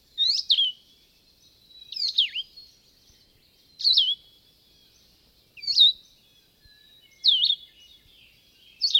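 A solitary warbler sings short, high, bright chirping phrases, each a quick tumble of sweet notes. Five phrases come at regular intervals with silent pauses between, and a sixth begins at the very end.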